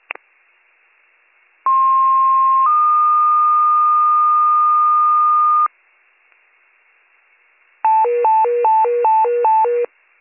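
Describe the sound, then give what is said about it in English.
Fire dispatch paging tones sound over a radio. A short steady tone steps up to a longer held tone, and after a pause a rapid high-low alternating warble repeats several times. “98 Fire, you can disregard the tones.”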